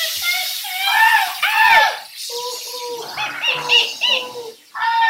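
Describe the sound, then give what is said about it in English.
Several people imitate rainforest sounds together, with overlapping bird-like chirps, warbles and whooping calls that continue steadily throughout. “We should make a rainforest sound together. You make that sound and we'll all join in making other rainforest sounds.”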